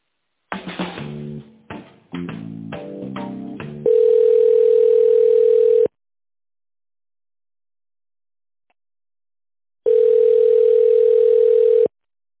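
A telephone line tone while an office call is being transferred: two long, steady, even-pitched tones of about two seconds each, separated by a gap of silence, after a short stretch of other line sound.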